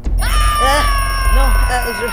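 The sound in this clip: An alarm clock rings with a steady electronic tone that holds throughout, under voices that rise and fall over it.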